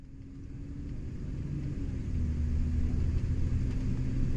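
Coach being driven on a road: a steady low engine and road rumble with a faint hum, growing slightly louder and holding a constant drone, with no voices.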